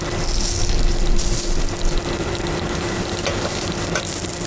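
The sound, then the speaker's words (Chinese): A steak dry-aged for 28 days sizzles as it sears over a charcoal fire, giving a dense, continuous crackling hiss that stays loud and steady throughout without pauses. “经过28天的发酵，牛排熟成完毕， 放到我们的炭火炉里面，煎出来很焦香。”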